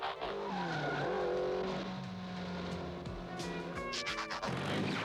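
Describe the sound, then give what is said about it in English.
Cartoon cars drive up a set of steps and away, with a sustained engine roar and squealing tires, then a burst of sharp screeches and skids near the end. “That all of them seem to be able to just drive up the steps and leave?”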